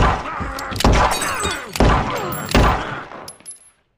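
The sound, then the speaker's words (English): Cartoon gunshots: three loud, sharp bangs at roughly even intervals, each trailing off in a rumbling decay, followed by a couple of fainter pops as the sound dies away. “Dee Dee, shoot that son of a bitch!”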